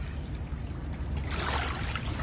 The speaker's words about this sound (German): Tönt das nicht idyllisch? Wasser, das ans Ufer von einem See plätschert.